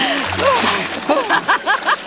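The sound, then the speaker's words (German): A water splash as someone is dragged under the waves, followed by a quick run of bubbling, gurgling blips that repeat rapidly toward the end. “Da umschlang ihn die Nixe mit ihren nassen Armen und zog ihn so schnell hinab, dass die Wellen über ihn zusammenschlugen.”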